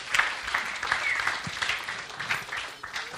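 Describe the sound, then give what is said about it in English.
Audience applause welcoming a speaker to the stage: sustained, crackling clapping from many hands, fairly even in loudness with small surges, lasting the whole stretch. “Give her a warm welcome, please.”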